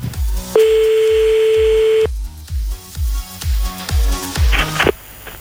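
A telephone call being placed: a steady tone holds for about a second and a half, then a quick burst of dialing tones follows near the end, all over a pulsing low beat.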